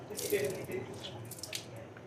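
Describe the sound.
Cups being washed up under a running tap in a sink: a steady rush of water with splashing and dripping, moderately loud throughout.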